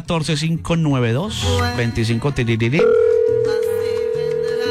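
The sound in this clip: Telephone ringing tone heard as a steady, unbroken tone that starts partway through and holds to the end, layered over music with singing that plays throughout.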